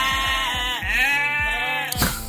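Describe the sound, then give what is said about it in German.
A Cameroon sheep at a farm in Hettstedt bleats one long, loud, wavering call, its pitch dipping and recovering, and a short knock follows right after it ends. “bei den Kamerun-Schafen”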